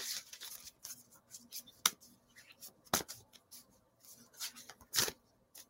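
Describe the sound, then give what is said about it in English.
Oracle cards are shuffled and one is pulled from the deck: a few crisp, sharp snaps and flicks stand out over a soft run of quieter rustling card-handling noises, with no one talking. “And then I'm gonna pull a fucking oracle card, just wrap this bitch up.”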